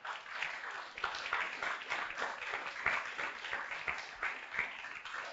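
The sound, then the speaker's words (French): A church audience applauding in praise of Jesus, steady dense clapping that stays fairly faint and even, with no voices standing out. “Acclamons pour le nom du Seigneur Jésus.”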